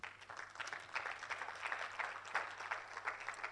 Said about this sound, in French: Acclamons le Seigneur.